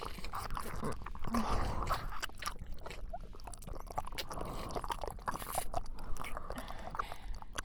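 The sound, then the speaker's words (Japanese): Soft, wet licking and mouth sounds from an ASMR roleplay around the navel: a long, close run of small smacks and clicks, quiet and uneven in rhythm. “おへその中も舐めさせていただきます。”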